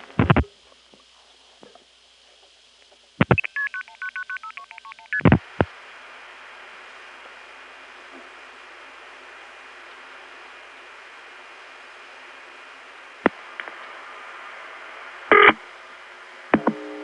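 Touch-tone dialing of a telephone number in Buxton, North Carolina, on Hatteras Island: short, sharp bursts of keypad tones separated by long pauses, with a low steady line hum between them.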